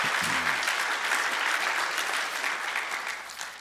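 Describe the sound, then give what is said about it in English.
Church audience clapping their hands during a morning service, a loud, steady wash of applause that eases slightly toward the end. “If you're really glad about that, let me hear your hands this morning.”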